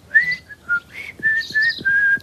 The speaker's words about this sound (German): Ich hab auch Talent. Ich kann pfeifen.